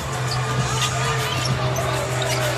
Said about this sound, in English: is going to dribble this one out